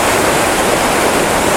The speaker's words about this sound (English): there's a good foreground waterfall over there